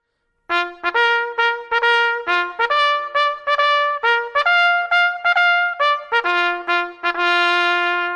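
Bugle playing the military call Tattoo, as heard on US Army bases: many short, clear, brassy notes jump between a few pitches in a measured rhythm, ending on a long held note, alone with no talk.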